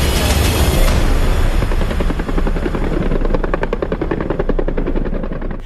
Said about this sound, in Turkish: Taarruz helikopterleri gökyüzünü inletti.